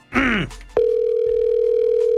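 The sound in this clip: A telephone dial tone sounds while a call is being dialed: a steady, unbroken single-pitch tone that follows a brief voiced sound and holds level to the end.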